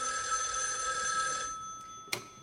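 A telephone bell rings in a steady, loud electric trill that cuts off partway through, followed by a short quiet stretch and a single sharp click, with no talk.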